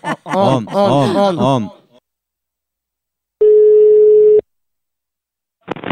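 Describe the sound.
A telephone call being placed: one steady ringback tone sounds for about a second after a stretch of lively talk, and a short sound returns near the end.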